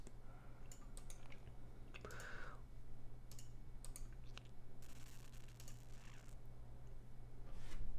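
Faint typing on a computer keyboard: scattered, irregular key clicks with short pauses over a quiet background hum.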